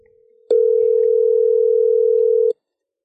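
Ringback tone of an outgoing phone call that goes unanswered and to voicemail: one steady, loud electronic tone that holds level for about two seconds, then stops.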